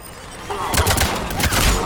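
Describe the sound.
Video game gunfire crackles as a few sharp, noisy bursts over a steady low rumble of game sound during a shooting sequence.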